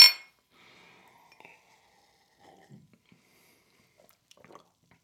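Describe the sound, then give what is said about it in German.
A single bright clink of glasses touched together in a toast with a sparkling drink rings out sharply at the start, followed by faint small clatters and soft rustles. “Stößchen.”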